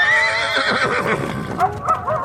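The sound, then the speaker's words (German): Frightened carriage horses neighing and whinnying in alarm, loud wavering high-pitched calls that overlap and repeat across the whole clip, with no talk. “Es wirkte auf die Pferde wie auch auf mich in der gleichen Weise, denn ich wollte am liebsten aus der Kalesche springen und fortrennen, während die Pferde sich aufbäumten und wie wild ausschlugen”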